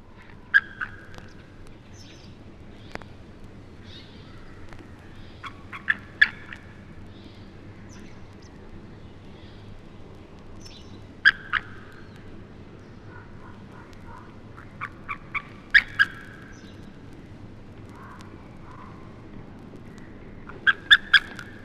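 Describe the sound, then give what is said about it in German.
Defensive calls of an eagle near its nest while a buzzard attacks it, recorded from 300 metres away with a parabolic reflector: short, sharp calls in scattered clusters over a low, steady background rumble. “Das nächste Beispiel gibt Abwehrlaute eines Adlers in Horstnähe wieder, der von einem Bussard attackiert wird.”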